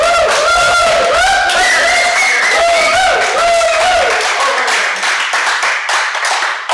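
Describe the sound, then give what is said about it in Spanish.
Colleagues and collaborators chatter in a room of the Hotel Meliá during the Sitges festival. A dense, steady hubbub of overlapping voices is broken by scattered claps and taps. “que sepáis que todo ese ruido, algarabía de fondo es del público, no lo llamaría público, son colegas, colaboradores, colaboradoras que han venido aquí pues a una de las salas del Hotel Meliá en Sitges”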